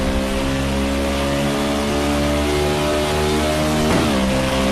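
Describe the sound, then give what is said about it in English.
A V8 race car engine on the banking of a NASCAR oval track gives a loud, steady droning roar with strong harmonic tones throughout and a brief pitch dip near the end. “Let you enjoy some of that sound that is coming out of the V8 of this machine.”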